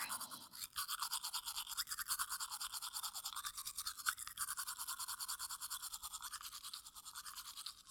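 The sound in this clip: A toothbrush scrubs teeth in rapid, even back-and-forth strokes that repeat many times at a steady rhythm. The brushing is fairly quiet and heard alone, while someone brushes another person's teeth.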